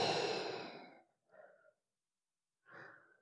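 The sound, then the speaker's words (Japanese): Breathing out: one long, loud exhale, then two shorter and softer breaths after a pause, with no talking. “で、吐いて、”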